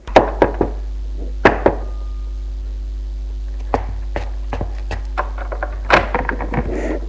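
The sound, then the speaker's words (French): Knocking on the door of a concierge's lodge: several sharp raps come in short clusters, followed after a pause by a series of lighter, scattered knocks and thuds over a faint low hum. “Il frappe à la loge de la concierge qui lui ouvre.”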